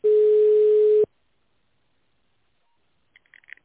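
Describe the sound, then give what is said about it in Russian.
Telephone line tone during a call transfer: one steady, loud, mid-pitched tone lasting about a second, then silence broken only by a few faint, short blips near the end. “Для соединения с секретарем оставайтесь на линии. Ваш звонок переводится на секретаря.”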